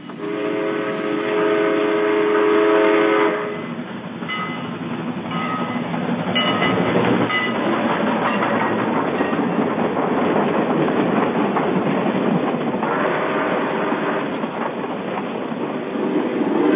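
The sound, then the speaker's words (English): A train passes with a steady heavy rumble and rhythmic rail clatter. A horn sounds loudly over the first few seconds before the rolling noise carries on alone. “I think it was a train.”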